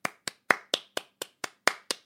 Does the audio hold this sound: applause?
yes

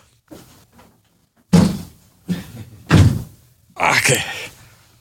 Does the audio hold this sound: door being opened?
yes

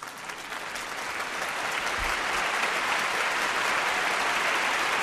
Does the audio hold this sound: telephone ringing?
no

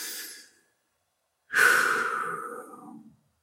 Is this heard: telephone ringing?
no

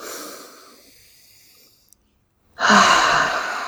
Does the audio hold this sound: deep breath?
yes

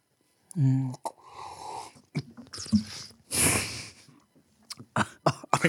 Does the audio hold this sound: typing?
no

